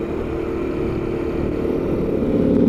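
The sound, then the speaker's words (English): Steady engine drone of a Honda CT motorcycle while riding, a low continuous hum mixed with wind rush that grows slightly louder toward the end, with no talking. “Currently riding the Honda CT at the moment.”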